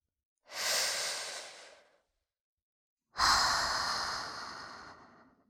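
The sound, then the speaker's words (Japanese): A person breathes deeply in two long, airy breaths: an inhale, then after a short pause a longer, stronger exhale, soft hissing air with no talk. “ほら、深呼吸。吸って、吐いて。”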